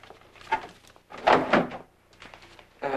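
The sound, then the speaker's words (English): A drawer is opened in a bedroom to take out developed photographs, giving a few wooden knocks and sliding bumps in short, separate bursts, with the loudest in the middle and another near the end. “goes to a drawer. He takes out the developed pictures and hands them to her.”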